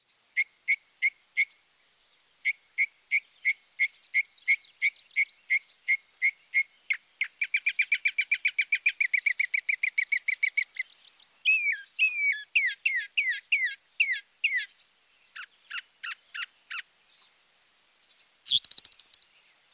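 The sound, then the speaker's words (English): Mockingbird singing, alone and without pause: a long series of high, evenly spaced repeated notes, a rapid buzzy trill, then slurred whistled phrases and sharp chips, ending in a short harsh rasp. “Here's the mockingbird one more time.”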